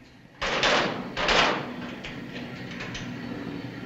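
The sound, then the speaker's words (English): A metal locker's outer casing lid is put back, then the locker door is shut. Two distinct clanging closes come about a second apart, each with a bright metallic burst, and they fade into a quieter lingering tail. “He replaces the lid of the outer casing, then shuts the locker door.”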